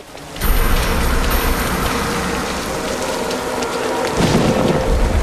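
Heavy rain at night pours in a dense, continuous hiss of drops on surfaces, with a deep low rumble underneath like thunder, loud and steady throughout with no voices.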